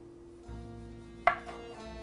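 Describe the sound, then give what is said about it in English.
A knife slices the end off a spiral seashell-shaped tamale with a single short, muted cut that sounds once against a faint steady hum. “you can actually slice off the end of it, which I have a knife.”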